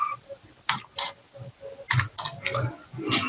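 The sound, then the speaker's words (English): Typing on a computer keyboard: irregular clusters of crisp keystrokes with short pauses between bursts, clicking along at a moderate pace. “drop it on there, type something on, so do some work. And you can actually have many people, let's just type it so we can see it, do some work.”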